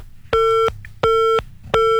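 A telephone busy tone after a dropped call: three loud, steady beeps of equal pitch in an even rhythm, the last one cut off, with faint line hiss in the short gaps.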